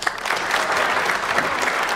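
Polite applause from a gathered audience: a steady patter of many hands at moderate volume, even and unbroken throughout.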